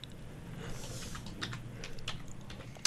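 Keys are tapped on a computer keyboard in a few faint, irregular clicks, with a sharper click at the very end.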